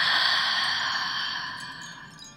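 Soft, airy breath during a guided breathing exercise: one long, steady hiss that fades gradually over about two seconds.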